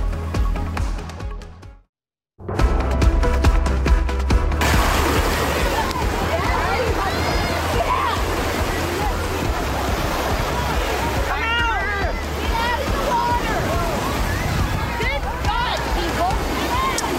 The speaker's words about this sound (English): The terrifying video you're watching out of Northwest Florida, that is a shark spotted swimming near the shore of a crowded beach near Pensacola.